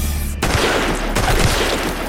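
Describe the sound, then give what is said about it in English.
Gunfire strikes a woman from behind as guards shoot near rows of parked SUVs: after a short lull, a loud, dense burst of rapid shots erupts and keeps rattling as sustained fire to the end. “Bullets rip through her chest from behind.”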